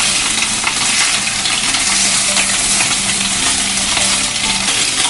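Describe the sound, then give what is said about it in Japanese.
Bacon and an egg fry in a pan, giving a loud, continuous crackling sizzle with fine popping spatters that keep an even level from start to end. “ベーコンを並び直して真ん中に卵を落とす隙間を作って”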